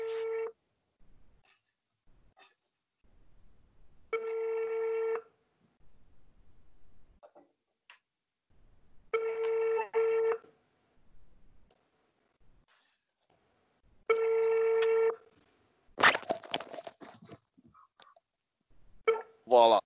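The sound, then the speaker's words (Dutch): Outgoing phone call ringback: a steady mid-pitched buzzing tone pulses four times at regular intervals with faint noises between, then a brief burst of sound and a voice near the end. “ga ik even gewoon bellen”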